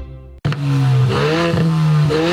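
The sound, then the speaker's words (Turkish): A car engine with no muffler revs hard, a loud, raw low drone that starts abruptly after a brief pause and holds steady with a wavering pitch and a few small dips. “Arabada susturucu yokmuş.”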